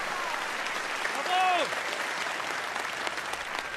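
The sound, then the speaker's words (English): An opera audience applauds, a dense, steady wash of clapping that fills the whole stretch at an even level. “the woman in the audience applauds, the man on her shoulder wakes with a start, applauding.”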